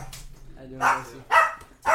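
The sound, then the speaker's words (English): A dog gives a few sharp, loud barks in quick succession after a fainter opening yelp, with quiet gaps between them. “What's up, puppy?”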